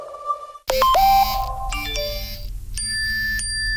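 Mobile phone ringtone: a bright electronic melody of bell-like tones that rings out loudly and steadily after a brief soft tone.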